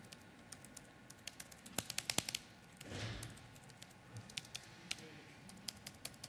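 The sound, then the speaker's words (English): Someone types on a computer keyboard with some broken keys, producing many faint, irregular clicks, with a quick burst of keystrokes early on and scattered single presses afterward. “I press the key but nothing happens.”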